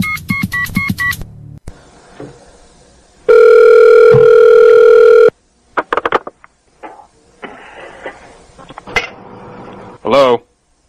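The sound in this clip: A telephone call being placed: a short run of keypad beeps, then a long, loud, steady tone, followed by further scattered electronic tones and clicks with quieter gaps between them.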